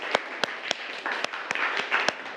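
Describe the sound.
Students clap together during a classroom science lesson about butterfly pea flowers and the smell of ginger. The claps are a series of sharp, separate hits in an uneven rhythm, not a continuous applause, with a quiet gap between each.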